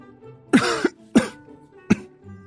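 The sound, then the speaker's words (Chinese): A man coughs awkwardly three times, each a short, throaty burst with a slight rasp, separated by pauses and heard alone at moderate volume. “赵斌不自在地咳嗽。”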